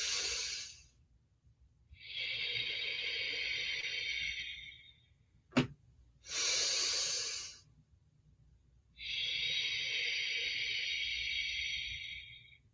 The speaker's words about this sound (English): if I focus and I just let myself go a little longer, I might be able to lengthen and deepen the breath.